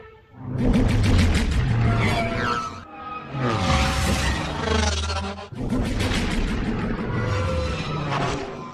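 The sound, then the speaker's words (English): Podracer engines roar in a film sound effect, a loud, continuous, dense roar with a shifting whine and several surges as the racers tear past. “Well, it's pod racers. Is the right answer just the pod race? Pod racers, yeah.”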